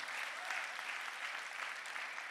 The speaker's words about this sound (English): Come on, three people are clapping. It should be more than that.